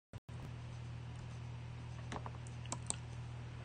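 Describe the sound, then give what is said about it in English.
Typing on a computer keyboard: a quick burst of clicks at the start, then a few soft, scattered keystrokes over a faint, steady low hum. “Let's type in Tesla.”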